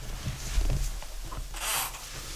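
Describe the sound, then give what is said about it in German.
Playing cards drawn from a deck during a card game: soft papery rustles and slides, then a longer brushing swish toward the end. “Du darfst zwei Karten ziehen, aber ähm, noch nicht anschauen.”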